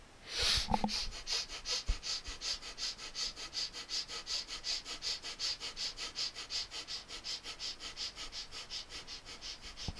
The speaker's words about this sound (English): And we will begin the practice again with the breath of fire.